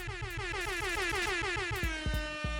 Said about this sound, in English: Yeah, there's some air horns out there. I got to do some air horns.